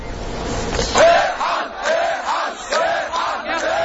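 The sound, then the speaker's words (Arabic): Protesters chanting in Tahrir Square, Cairo: a large crowd of voices shouting loud, rhythmic phrases in repeated bursts. “لم تنجح قرارات الرئيس حسني مبارك حتى الآن في احتواء غضب هؤلاء المتظاهرين الذين جعلوا من ميدان التحرير عنوانا لغضب شعبي”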